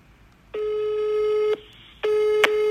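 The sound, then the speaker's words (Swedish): A telephone ringing tone plays while calling someone: a steady single-pitched tone sounds in two one-second pulses separated by a short gap, with a faint click near the end. “Jag måste ringa upp Ibbe.”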